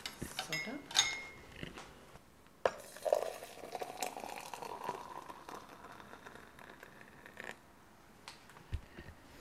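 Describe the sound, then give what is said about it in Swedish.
Water poured into a cup with coffee already in the bottom, a soft trickling pour with a few glassy clinks, fairly quiet and uneven in level. “Nu hällde du upp vatten här och det finns tydligen kaffe färdigt i botten för det blev sån här fin brun färg här”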